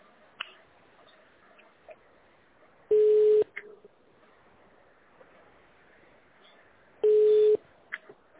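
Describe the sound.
Telephone tones play while a call is being transferred: two short, steady mid-pitched beeps about four seconds apart, with a few faint clicks on an otherwise quiet line.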